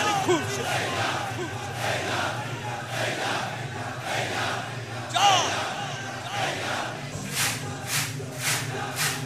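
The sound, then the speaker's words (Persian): A crowd chants "Haidar" in loud unison, with many rhythmic, evenly spaced shouts rising over the steady roar of a packed gathering. “حیدر تاری دستو بیار بالا بگو حیدر، چشم دشمنان امیر المومن کور شد.”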